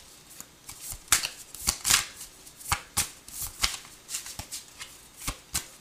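Tarot cards being shuffled, crisp riffling and slapping bursts coming in an irregular rhythm, with no talk over them.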